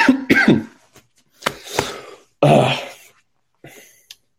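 Throat-clearing coughs from someone with something stuck in the throat: a few harsh, loud bursts, several clustered at the start, then scattered single coughs and a final softer one, with no talk.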